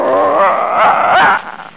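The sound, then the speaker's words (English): A small dog growls in a sustained, rough, fairly loud rumble that wavers in pitch and breaks into a few quieter whimpering sounds at the end. “Oh, but that's against regulations, pal. I can't take no dog on board with me.”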